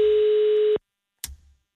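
A telephone call to a Danish municipal mayor's office: a single steady ringing tone lasts under a second and cuts off abruptly, then after a short silence a brief click sounds.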